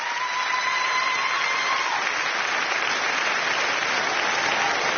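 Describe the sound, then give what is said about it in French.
An audience gives an orchestra a standing ovation in studio 104. The applause is dense and steady and holds at an even loudness from start to finish. “Une ovation ici en direct du studio 104 sur France Inter.”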